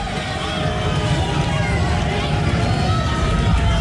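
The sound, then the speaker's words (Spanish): Football stadium crowd ambience at a World Cup match as the teams walk onto the pitch: a dense, steady roar of many voices, loud and unbroken throughout. “Es el sonido de los estadios, somos Blu Radio”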